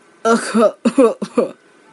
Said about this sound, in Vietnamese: ho khan vài tiếng, lưng còng run lên cười nói.